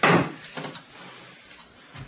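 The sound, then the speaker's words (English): A chair and desk are shoved across a classroom floor: a loud scraping bump at the start, then a few lighter knocks and thuds. “I want you to move your chair and your desk over there.”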